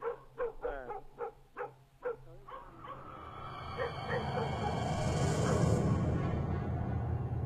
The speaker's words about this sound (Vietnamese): Thế nhưng con chó vẫn cứ sủa nhấm nhà nhấm nhặng.